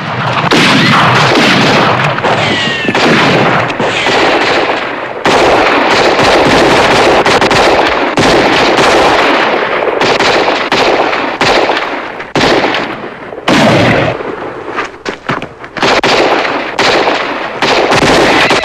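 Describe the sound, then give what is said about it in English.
Heavy gunfire as a posse in a Western returns fire at a gunman posing as a hangman. Many loud, sharp shots crack in rapid bursts with brief gaps between volleys, and the firing continues throughout. “The posse return fire at the man, who is shown to be the bogus hangman. They're pinned down by his intrusion.”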